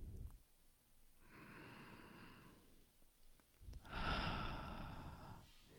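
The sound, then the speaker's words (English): Slow deep breaths during a guided meditation: two long, airy, soft breath sounds separated by a quiet pause, the second fuller and louder than the first. “Take this breath with me.”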